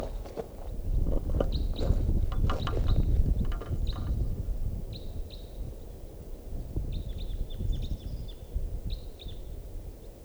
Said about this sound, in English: At 5 a.m., here comes a crossbill.